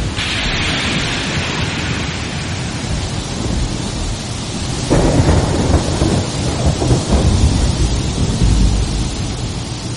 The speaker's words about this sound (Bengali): ঝড় থেমে গিয়ে বৃষ্টি নামল, চলল বেশ কিছুক্ষণ।